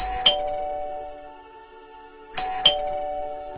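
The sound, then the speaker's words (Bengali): A doorbell is pressed and rings twice, each time a bright chime with a ringing tone that lingers before fading, with a quiet pause between the two rings. “ধীরে ধীরে এগিয়ে গিয়ে calling bell টিপল পরশর।”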